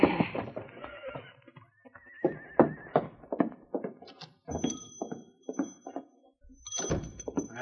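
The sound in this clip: A horse whinnies over a series of clip-clopping hooves that come to a stop, the hoofbeats falling as uneven, fairly soft thuds between the higher neighing cries.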